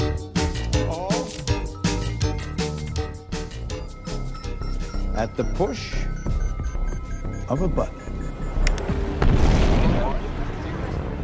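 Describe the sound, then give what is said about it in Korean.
A missile launches from an opening silo in a film scene, heard as dense, booming sound that swells into a loud, sustained rushing roar near the end. “악당이 음흉한 미소를 지으며 미사일 발사 버튼을 누르자 격납고가 열리면서 거대한 미사일이 치솟아 오르고 이를 지켜보던 사람들이 이내 충격에 휩싸입니다.”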